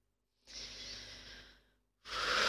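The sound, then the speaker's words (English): Deep breathing during a guided relaxation: a long, airy, breathy rush of air that fades out, followed after a short silence by the start of a louder, stronger breath. “We're taking a few deep breaths with you.”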